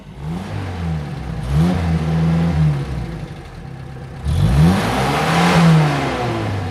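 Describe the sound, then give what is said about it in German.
A car engine revs loudly in two rising, roaring surges, each climbing in pitch before settling back to a steady drone, with no voices. “Nun das Auto.”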